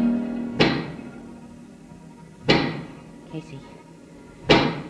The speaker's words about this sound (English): do you hear that knocking? I sure do. That is the sound of a giant pick.